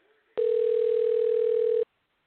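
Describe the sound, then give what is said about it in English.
A telephone call tone: one steady, loud, pure beep held for about a second and a half, starting and stopping abruptly, with no talk. “And I'm going to dial it up now. Okay, it's dialing.”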